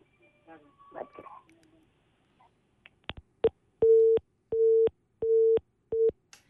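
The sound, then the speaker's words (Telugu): A telephone busy tone sounds after a call to a phone-in line drops mid-conversation. Speech at the start gives way to a few clicks, then four steady, evenly spaced mid-pitched beeps. “మరి call మాట్లాడుతూనే కదా call cut అయిపోయింది”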